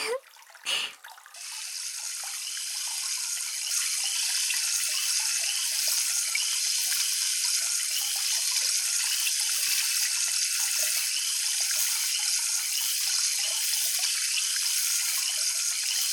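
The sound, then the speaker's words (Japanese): Tap water runs for rinsing, starting with a brief uneven splash and then settling into a steady, bright rushing hiss that continues unbroken and alone. “洗い流していきますので”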